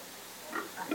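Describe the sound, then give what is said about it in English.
Piglets grunt in a few short, soft snorts that come close together in the second half, after a quiet start. The sound is faint and heard alone. “That if I couldn't find you anywhere else, you'd be here spoiling the piglets.”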